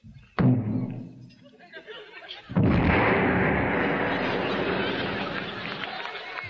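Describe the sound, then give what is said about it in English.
A video game Uzi fires one sharp shot that destroys a military base, followed by a loud, long roaring explosion that slowly fades. “Oh, that's a mean gun. We just wiped out a whole military base with one shot.”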